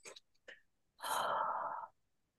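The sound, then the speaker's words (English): A breathing exercise: two quick, soft sniffs in, then a pause, then one long, even breath out lasting close to a second. No voice speaks. “one good breathing way to do it is to like do two quick sniffs in and a long breath out”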